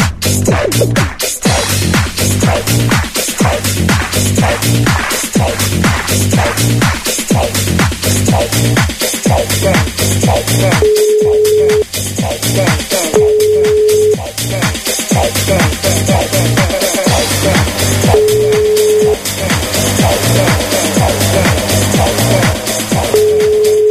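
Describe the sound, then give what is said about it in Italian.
Ringback tones of an outgoing telephone call: four steady, mid-pitched beeps, each about a second long and a few seconds apart, sit under loud, rhythmic music that plays throughout. “Stiamo chiamando Giuseppe.”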